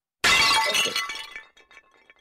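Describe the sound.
A bowl breaks with one sudden loud crash that quickly gives way to a scatter of faint tinkling fragments before silence.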